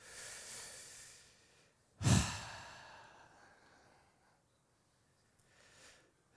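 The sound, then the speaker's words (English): Deep breathing heard alone: a long, airy drawn-in breath, then a sudden louder gust that trails off slowly, and a faint breath near the end. “Deep breath in.”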